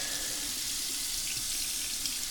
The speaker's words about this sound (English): So now we rinse the other cup off. And rinse out the funnel.